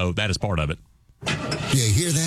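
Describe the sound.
A car engine starts and runs loud and rough after a short spoken question and a brief pause, continuing steadily to the end.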